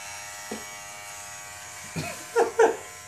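An electric razor shaving a person's calf gives a steady, faint buzzing hum, broken by a few short, louder scraping bursts that cluster toward the end.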